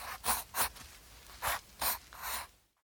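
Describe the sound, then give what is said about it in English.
Strokes of a drawing tool scratch on paper while a man is drawn, with five short, soft, scratchy strokes separated by brief pauses. “Let's draw a man. Draw his head. Draw his arms and legs.”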